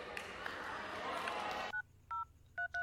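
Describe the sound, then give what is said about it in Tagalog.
Touch-tone beeps from a telephone being dialed to place a call: four short, clear tones follow a stretch of murmuring voices and background chatter. “Tawagan ko nga.”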